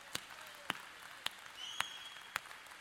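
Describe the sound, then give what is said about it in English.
A church audience clapping hands together during a sermon: five sharp, evenly spaced claps in a steady beat, fairly faint. “Well, let's everybody clap our hands and”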